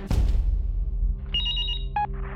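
A cell phone rings with an incoming call, giving a short run of bright electronic ringtone notes over a low rumbling background.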